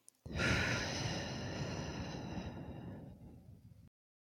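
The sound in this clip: A slow, deep breath, drawn as one long, fairly loud breathy rush that holds steady for several seconds before cutting off, with no talking.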